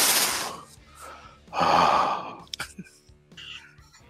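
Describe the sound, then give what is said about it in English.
Heavy breathing into a microphone: a few loud, rough breaths, with the longest and strongest in the middle, then fainter puffs and small clicks toward the end. “Can you breathe more into that microphone?”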